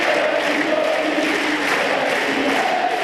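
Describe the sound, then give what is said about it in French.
A tennis crowd at Roland-Garros chants the name of teenage player Moïse Kouamé, a continuous, dense roar of many voices with faint rhythmic, pitched shouting running through it. “Le public qui scande le prénom de Kouamé, c'est le nouveau tube de Roland-Garros.”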